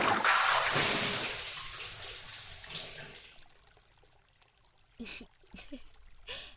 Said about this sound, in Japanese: ねえ、今めっちゃお湯あふれていったけど